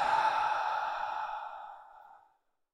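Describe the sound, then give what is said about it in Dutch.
A slow breath out through the mouth during a guided breathing exercise: one long, airy exhale that starts steady and fades gradually over about two seconds into silence. “En dan langzaam uit door de mond.”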